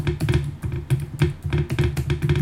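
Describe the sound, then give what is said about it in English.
A laptop clatters against the coffee table it sits on while someone types, a steady run of many quick, loud taps and knocks with no talk. “that clattering you can hear is my computer banging against the coffee table, which the microphone is on, so I apologise for the noise”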